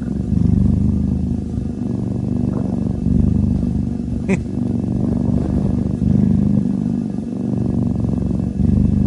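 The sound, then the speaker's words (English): A cat purrs loudly in a deep, continuous, motor-like rumble. The throbbing rhythm stays steady throughout, broken only by a brief click partway through. “Big purrs. That's a cat? That's a cat. I know. He sounds like a motor.”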